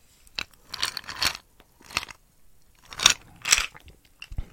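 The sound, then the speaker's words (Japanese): Soft mouth and swallowing noises come from someone sipping an alcoholic drink. They form a series of faint, brief, crackly bursts spread unevenly over a few seconds in an otherwise quiet background. “一口飲んでみました。”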